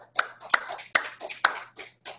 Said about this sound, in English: All other OA abstinence is given a round of applause.